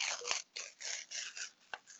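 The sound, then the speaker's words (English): A golden envelope being opened, with faint papery scraping and rustling in several short bursts and a sharp tick near the end. “I'm just going to open up the golden envelope as always uh, to see who our nominations are.”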